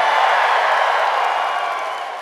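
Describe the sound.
Studio audience cheering and applauding, a dense, even roar of clapping and voices that gradually fades toward the end.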